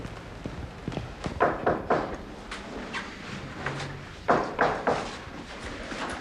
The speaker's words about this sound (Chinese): 哎呀，这么敲谁能听得见呀？